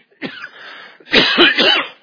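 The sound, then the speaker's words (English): A person coughs during a spoken Bible teaching: two rough, breathy bursts with no talk over them, the second louder and longer than the first. “I felt that cough coming.”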